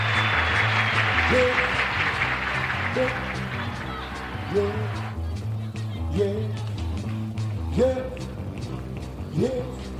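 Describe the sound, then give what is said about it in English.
Audience applause follows a band member's introduction on stage: dense, steady clapping that carries throughout and thins somewhat midway, with a voice and low tones heard beneath. “Mr. Earl McClain, how about a wonderful round of applause?”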